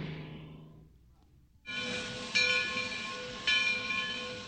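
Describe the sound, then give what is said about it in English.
Train sound: after a short quiet gap, a steady hissing rumble with sustained whistle-like tones starts abruptly and swells louder twice more. “Is this a train? Yes, it is.”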